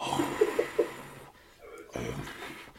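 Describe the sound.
A man's voice imitates a deer blowing breath. Breathy, airy huffs follow a short burst of vocal sound and stay fairly soft throughout.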